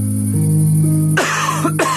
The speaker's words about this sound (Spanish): Una tos puede convertir tus sueños en la peor pesadilla.